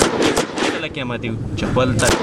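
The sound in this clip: Gunfire from soldiers at shooting practice during army training: a few sharp, loud bangs at the start and again near the end, with voices and other noise in between.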